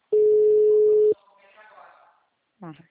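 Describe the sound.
Telephone dial tone at the start of a phone call: one steady, unchanging tone lasting about a second, followed by a faint voice and a brief voiced burst near the end.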